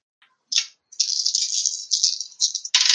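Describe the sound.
Rattle of eight dice shaken and rolled during a Shadowrun tabletop role-playing game: a faint tick, then a short shake and a busy continuous clatter, ending in a louder final burst.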